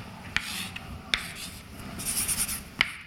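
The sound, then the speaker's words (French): Writing on a board during a physics lecture: soft, faint scraping strokes punctuated by a few sharp taps, heard alone without talk. “Donc je vais écrire ceci comme ça.”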